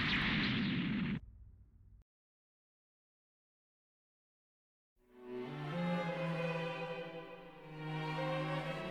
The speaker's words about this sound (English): Suddenly, the massive Federation mobile armor exploded.